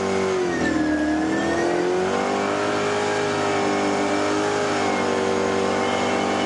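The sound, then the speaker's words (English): A race car engine revs hard during a ride outside Charlotte, giving a loud, continuous mid-pitched drone with a slight dip early on, then holding steady throughout. “The day we met them outside Charlotte, Joey took Gavin for a spin.”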